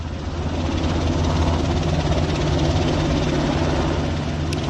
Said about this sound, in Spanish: poco a poco empezamos a mover los rotores. Pues vamos para el 1 en 3, 2, 1, top, arrancando el 1.